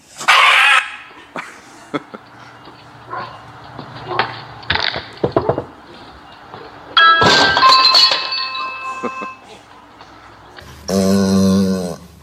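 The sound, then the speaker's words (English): A dramatic husky getting a shot gives a few loud, drawn-out yowls and whining howls, separated by quieter clattering and thumps. “This dramatic husky needed to get a shot.”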